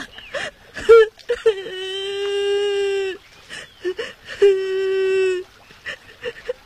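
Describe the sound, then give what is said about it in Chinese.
A child cries: short choked sobs and gasps, then two long, sustained, high-pitched wails separated by more broken sobbing. “小朋友啊，怎么了？为什么在这儿哭啊？别哭了，别哭了。”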